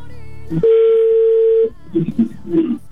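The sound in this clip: A telephone ringback tone sounds while a call waits to be answered: one steady, loud, pure tone lasting about a second, with voices talking just before and after it.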